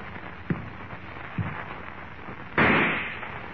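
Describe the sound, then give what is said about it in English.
A staged rifle-shot sound effect: two faint thuds lead up to one loud, sharp blast that cuts in abruptly and then decays over about a second. “Suddenly, the rifle in Harmon's hands thunders its message of death”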